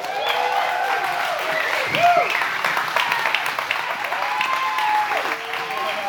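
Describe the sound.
Audience applause welcoming a guest onto a stage: a sustained, dense wash of clapping from a crowd, with a few whoops and cheering voices rising over it.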